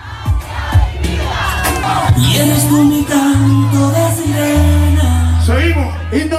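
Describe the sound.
Street protesters chant a protest song together, loud massed voices holding sustained notes with shouts rising over the crowd noise throughout.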